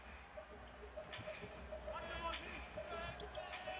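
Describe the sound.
Faint bouncing of a basketball dribbled on the court in a Philadelphia game, soft repeated thumps buried under crowd noise and a commentator talking.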